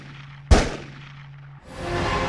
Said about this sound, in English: Who is shooting at the team and why?